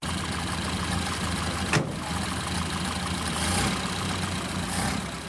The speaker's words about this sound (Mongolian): Машин тэрэг хөдлөлээ.